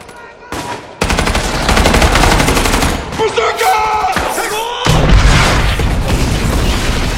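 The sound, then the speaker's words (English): Two sides trade heavy gunfire in a ravine battle, with rattling machine-gun bursts and booming shots. Loud, dense volleys erupt after a brief quieter opening and continue almost without pause, with short gaps between bursts. “Fire! The two sides exchange fire.”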